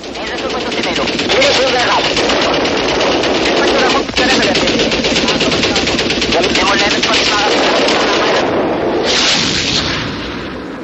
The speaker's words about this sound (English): Once again, the actual aerial combat shots taken by the Israeli gun cameras.